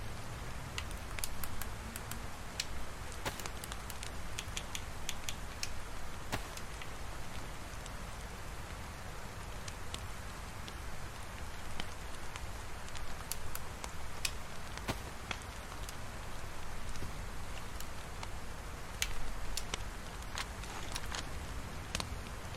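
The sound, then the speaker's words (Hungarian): Steady rain patters on without pause, soft and even, dotted throughout with many sharp little drip taps and no voices. “Remélem, hogy mire megszáradok, addigra eláll az eső is.”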